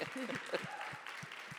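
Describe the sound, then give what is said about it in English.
A church audience gives a round of applause, a soft continuous patter of clapping with a man talking over it throughout. “Everybody, let's give him a round of applause and tell him how much we...”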